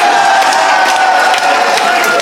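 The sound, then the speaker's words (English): Loud audience applause and cheering at a comedy game show, a dense, continuous wash of clapping with raised voices whooping over it. “How did that get a round of applause?”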